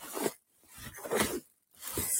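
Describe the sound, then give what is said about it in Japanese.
Rustling and scraping as someone rummages through a backpack for a card case: three bursts of crinkly, papery and fabric noise separated by short quiet gaps, at moderate loudness. “ガサガサゴソゴソガサガサゴソゴソ。どこ行った？どこ行った？カードケースがどこ行った？”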